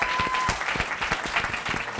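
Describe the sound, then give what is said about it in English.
Applause from a live show audience greeting two audience representatives, with brisk, dense clapping at a moderate level that continues evenly for about two seconds. “Please give a hand for the audience representatives.”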